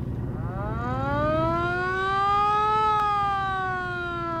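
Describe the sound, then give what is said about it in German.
A police car siren is switched on in heavy traffic during a chase. Its wailing tone climbs steadily for almost three seconds, then holds and eases slightly lower, loud and alone over a low, steady hum. “Verdammt, dieser Verkehr. Ich schalte besser die Sirene ein.”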